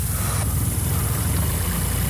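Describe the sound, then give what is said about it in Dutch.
A car engine runs as the driver slowly presses the gas after releasing the handbrake. It gives a low, steady, loud hum with a constant rumble and no clear climb in pitch. “ik geef gas nu langzaam”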